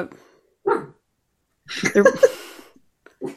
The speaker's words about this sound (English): See, no one likes this film, not even the dog, you know. No, the dog really doesn't like it.